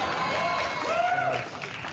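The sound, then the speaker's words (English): Audience applause breaks out after a joke about a court barring gays from Boston's St. Patrick's Day parade, a steady wash of clapping that holds through the whole moment and eases slightly at the end. “I'm afraid to know what you're applauding at there.”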